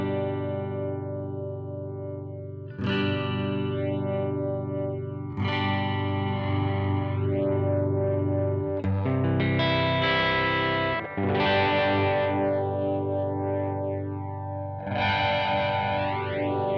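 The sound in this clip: Phasing from two copies of a record played on two slightly misaligned decks: a loud, sustained music tone with sweeping, whooshing swirls that shift in character several times as the decks drift against each other. No talking.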